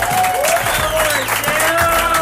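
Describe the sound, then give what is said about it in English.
A baseball crowd at a White Sox game applauds a rookie pitcher with steady, dense clapping throughout, while a voice talks over it. “A wonderful hand from this appreciative crowd.”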